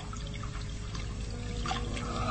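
Boiled water is poured to clean wounds, a faint, steady splashing trickle with no voices over it.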